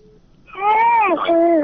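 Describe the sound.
A baby cries near a caller on a radio phone line. One loud, drawn-out wail holds a high, slightly wavering pitch, dips briefly, then carries on.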